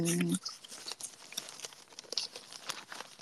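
Papery crinkling and rustling of an envelope of documents being handled, a quick run of light crackles, taps and crumples at moderate level with no talking.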